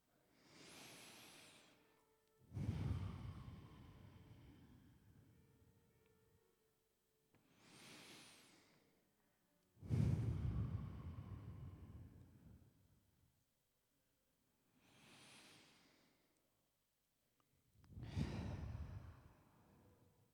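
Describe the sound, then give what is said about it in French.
Three deep breaths taken in a steady rhythm, each a soft, airy inhale followed by a louder, longer, rushing exhale, with brief silence between them and no talking. “Et commençons avec nos habituelles et traditionnelles trois respirations, oui, s'il vous plaît.”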